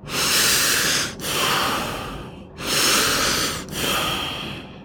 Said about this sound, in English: So we're going to breathe three times.